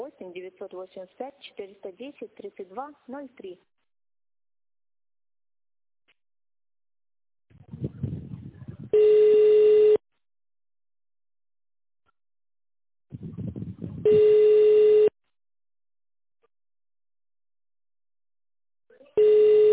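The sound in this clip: Telephone signal tones on a pharmacy voicemail line: a voice speaks at first, then three steady mid-pitched beeps about a second long, each preceded by a short burst of noise and separated by silence.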